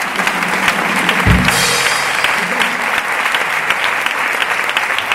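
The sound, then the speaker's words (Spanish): An audience applauds an orchestra at the closing gala of a film festival. Dense, steady clapping fills the whole stretch without letting up. “Un aplauso para ellos, por favor.”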